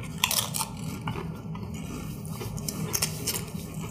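Crisp crunching of a new-flavor Doritos tortilla chip being bitten and chewed, a few sharp, bright crackles scattered over a steady low rumble, with no talking.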